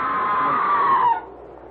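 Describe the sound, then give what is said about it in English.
A single scream rings out at an old manor house: loud, sustained for about a second, its pitch sagging slightly, then cut off abruptly, leaving only a faint low hum. “Oh, the scream! There it is again! That was a scream, Sir Leonard. Not the wind playing tricks.”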